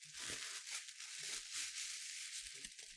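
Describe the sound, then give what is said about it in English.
A mailed gift is unwrapped: quiet, continuous crinkling, rustling and tearing of wrapping, with irregular small crackles throughout. “she said I can't open it until now. So I've been pretty excited to see what this is. It feels a little bit weird. You can hear me unwrapping it.”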